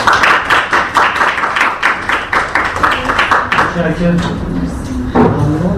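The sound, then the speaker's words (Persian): An audience claps in a steady, even rhythm, each clap sharp and regular, with voices rising over the clapping toward the end. “به افتخار خودتون دست بزنید.”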